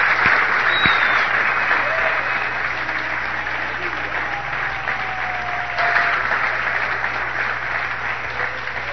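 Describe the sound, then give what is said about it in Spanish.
A church audience gives loud, sustained applause to the Lord, a steady roar of many hands clapping with a few thin whistles sliding over it. “No, démosle un aplauso fuerte al Señor.”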